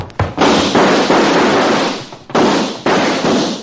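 Gunshots ring out in a western shootout: several sharp, loud bangs in irregular succession, each trailing off into a long ringing decay before the next shot cracks.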